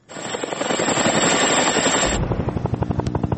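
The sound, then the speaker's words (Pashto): NATO helicopter flying over Afghanistan: a loud whining roar with a steady high tone that cuts off, giving way to a rapid, regular thumping of rotor blades. “لا هم د افغانستان په فضا د ناټو هلیکوپټرې ګرځي.”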